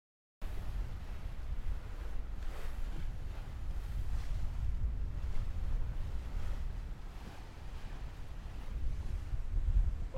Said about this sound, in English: Lookout duty, and we're doing 7 or 8 knots under sail, storming along.